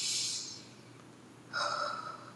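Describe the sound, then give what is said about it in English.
Deep inhales during a guided breathing exercise: two soft, airy breath sounds, the second slightly longer, quiet and with no speech. “Just take in a big, big inhale.”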